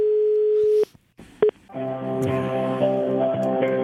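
A telephone call being placed to a city services line in Rome: a steady dial tone cuts off, followed by a couple of clicks and a brief beep, then a sustained harmonic tone that runs to the end.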